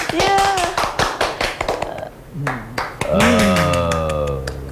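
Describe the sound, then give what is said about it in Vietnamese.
A class of students claps hands: many sharp, uneven claps crowd the first two seconds and keep scattering through the rest, while voices talk over and between them. “vỗ tay, vỗ tay.”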